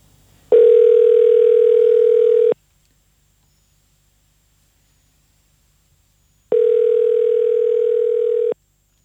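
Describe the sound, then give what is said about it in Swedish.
Telephone ringing tone plays while a call is placed to a former member of a local radio station. There are two long, steady, mid-pitched ring bursts of about two seconds each, separated by a long silent gap, with no voices. “ska vi ringa upp honom? Ja, men det kan vi absolut göra. Jag gör det nu faktiskt.”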